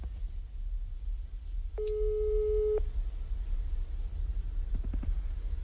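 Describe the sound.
A telephone ringing tone sounds while a call is placed: a single steady, mid-pitched tone lasting about one second, alone over faint background hiss.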